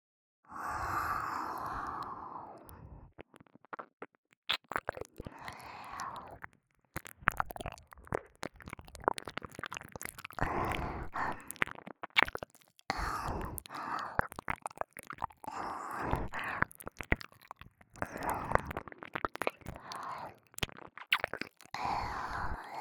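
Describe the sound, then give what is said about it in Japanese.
Ear licking produces wet mouth sounds: many soft smacks, slurps and moist clicks in an irregular, continuous stream with breathy undertones. “お耳をペロペロ耳なめさせていただきます。”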